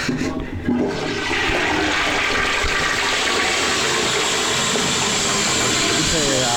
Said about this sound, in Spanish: Voy a tirar de la cisterna. Esta cisterna provoca un ruido ensordecedor, pero a la vez definitivo.